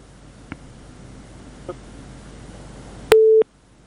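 A single short steady telephone tone, mid-pitched and clear like a busy signal after a dropped call, sounds near the end, preceded by two faint clicks over low hiss.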